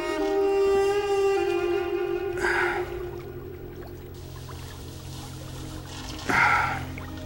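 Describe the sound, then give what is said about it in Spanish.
Water splashing as a man washes his face, arms and neck in a river: two brief, bright splashes a few seconds apart over a steady humming tone that fades after the first splash. “se refresca el rostro, brazos y nuca.”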